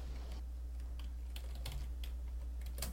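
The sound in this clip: Typing on a computer keyboard: many quick, crisp keystrokes in an uneven rhythm, fairly soft, over a steady low hum with no voices.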